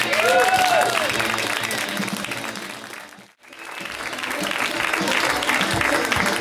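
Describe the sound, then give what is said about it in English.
Loud audience applause and cheering greet a stand-up comic at a comedy show. The dense clapping dips sharply for a moment midway, then swells back to full strength and continues steadily. “Put your hands together for Sharla Lariston.”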